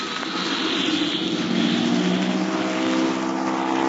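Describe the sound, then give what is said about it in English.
Propeller airplane taking off to clear trees: a dense, steady engine drone with a buzzing propeller hum that holds loud and even throughout, with no voices. “They're gonna have a mighty tough time to make a quick takeoff to clear those trees.”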